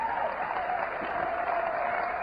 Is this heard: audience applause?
yes